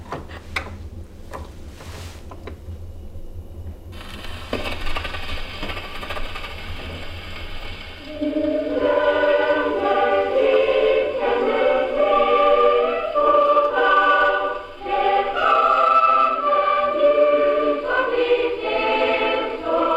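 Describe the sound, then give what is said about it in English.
A few sharp mechanical clicks and rattles as a gramophone is wound up and set, followed by a melody of bright, clear notes playing steadily from the wound-up gramophone, with no voices. “I'm winding up the gramophone now. Here we go. I put this piece back. There we go. And now let's listen.”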